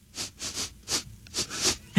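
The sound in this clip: Rhythmic nasal sniffing meant to carry a song tune: a series of short, breathy hissing bursts spaced at an uneven beat, fairly loud and heard alone.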